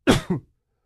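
Throat clearing: two harsh, raspy bursts in quick succession, the first louder and longer, the second shorter, heard alone with no talk.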